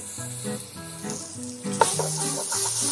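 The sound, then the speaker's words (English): Tomato paste and red pepper flakes sizzle steadily in hot oil while being stirred to combine. The frying hiss stays loud and continuous, with a brief clack of the utensil partway through. “And now stir it to combine. Really make sure that the tomato paste melts into the oil.”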